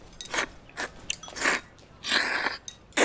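Someone eats noodles, chewing and biting in a string of wet, crunchy bursts with short pauses between them, close and fairly loud with no talk.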